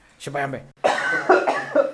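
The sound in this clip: Coughing from a person, said to come from an allergy: a few rough, throaty, partly voiced bursts follow one another in quick succession, loud and clear, with no talk around them.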